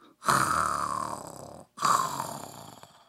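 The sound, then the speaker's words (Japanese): A voice imitates snoring for a man who lay down on his futon after a big meal, giving two long, rasping snores separated by a brief pause. “といびきをかいて寝だしたんじゃ。”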